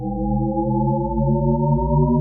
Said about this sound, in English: So there's this interesting audio trick called a shepherd tone. It sounds like this.